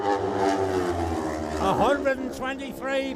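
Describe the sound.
A racing sports bike flies past at lap-record pace in a sports bike class road race near Glen Helen. Its loud, high engine note drops in pitch as it passes, beneath a commentator's excited talk.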